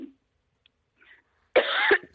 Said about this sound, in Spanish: tose a gusto.